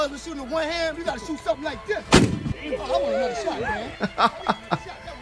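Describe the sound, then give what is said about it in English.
A single loud gunshot from a .50 caliber pistol cracks out midway through, cutting across chuckling and talking voices. “Here's the here's the here's the real 50 cal pistol. Here you go. You only get one shot. You only get one shot with this one. No automatic.”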